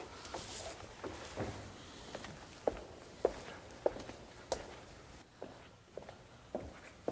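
Footsteps walk toward a staircase indoors: a steady run of many evenly paced, soft thuds with a slight scuff to each step, fairly faint and with no talking.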